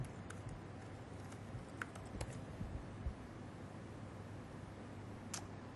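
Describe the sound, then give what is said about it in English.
Faint keystrokes on a computer keyboard as a username is typed at a login page. A few sparse, irregular clicks stand out over a steady, quiet noise floor. “I'm going to type in my username.”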